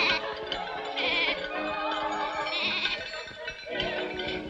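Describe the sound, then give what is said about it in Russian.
Overlapping bleats from a herd of sheep or goats being driven, loud and continuous throughout with no pauses and no talk. “Мальчики бегут к животным. Сзади стоят другие взрослые, которые гонят стадо.”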